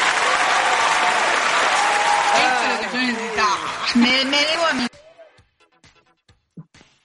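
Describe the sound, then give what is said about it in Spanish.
Loud audience applause fills the first five seconds with voices talking over it, then stops abruptly, leaving only sparse, quiet speech sounds. “prepárame los aplausos, por favor”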